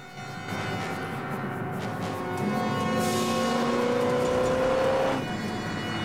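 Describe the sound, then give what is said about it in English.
A car speeding off in a chase. The engine roars and its whine climbs in pitch for several seconds as it accelerates, then drops away. No one speaks. “climb into a car and give chase.”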